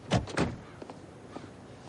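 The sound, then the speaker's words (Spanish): Two heavy thuds of car doors shutting as people get out of a car, close together and loud, followed by a few faint knocks and shuffling sounds. “Bajan del coche y suben las escaleras de un bloque de apartamentos.”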